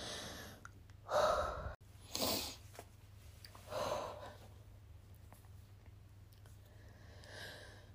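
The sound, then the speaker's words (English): A person who is getting emotional takes a few audible breaths, sharp inhales and sighing exhales separated by quiet pauses, fairly soft and with no talking. “hold on, I'm going to take a breath.”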